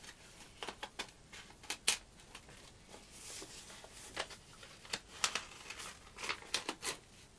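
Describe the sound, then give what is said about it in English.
Soft paper rustling and crinkling as a greeting card is slid into an envelope, a few faint, short scrapes and crackles scattered across a quiet background. “I'm going to put the card in the envelope now.”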